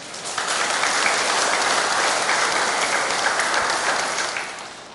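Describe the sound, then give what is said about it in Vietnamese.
Steady applause from an audience at a talk starts abruptly and holds at an even, dense level for about four seconds before tapering off. No voices are heard. “Thích nhất là khi mà đàm đạo với quý vị, nghe vỗ tay liên tục.”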